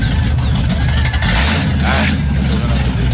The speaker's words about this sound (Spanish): Usted tiene como el exhausto roto.